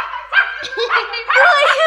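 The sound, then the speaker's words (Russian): Puppy barking and yipping in a quick burst of a few high, whiny barks, loud and alone. “Это собака!”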